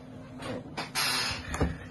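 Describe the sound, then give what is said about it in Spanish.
An old chair creaks with a few short, scraping creaks and rubbing strains, fairly quiet, with a somewhat sharper creak near the end. “o el que se acaba de escuchar, es mi silla que es viejita y la tengo que cambiar”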